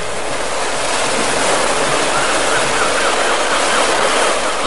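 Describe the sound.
Sea waves wash around a small wooden rowing boat on open water, a loud, continuous rushing of surf with no distinct breaks and no voices.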